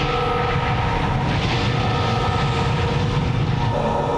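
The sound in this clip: An airplane in flight gives off a loud, steady engine drone: a dense, continuous roar with a low rumble underneath. It holds without breaks or voices.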